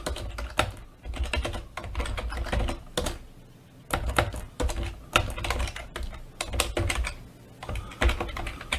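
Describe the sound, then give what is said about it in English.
Rapid typing on a computer keyboard as file name samples are entered, with many keystrokes in dense bursts, a brief lull near the middle, then more clattering strokes. “And here I'm just going to type in a couple of decent file name samples.”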